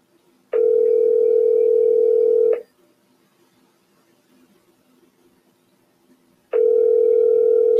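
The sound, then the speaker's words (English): Ringback tone on a phone line while calling someone: two long, steady electronic tones, each lasting about two seconds, separated by a longer silent gap, with no talk. “I'm gonna call our aunt Lisa because that is our girl.”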